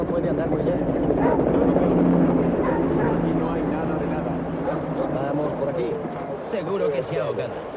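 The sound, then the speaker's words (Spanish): Police dogs bark while searching a riverbank at night, with repeated barks and yips over a steady, dense rumble, and people's voices mixed in throughout. “Grupos de policías con perros peinan la zona en busca de cualquier indicio.”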